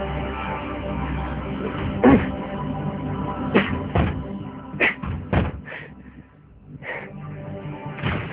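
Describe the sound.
Repeated heavy blows against the door of a room in a house as it is beaten with sticks to break it down: many loud, irregular thuds and slams over a steady low rumble.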